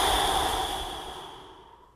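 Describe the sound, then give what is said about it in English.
A long, complete exhale through the mouth during a guided breathing exercise: a soft, airy hiss that starts full and fades steadily to near silence, with no talk. “Let me show you what it sounds like first, and then I will count for you and we can do it together. So first, exhale completely through your mouth.”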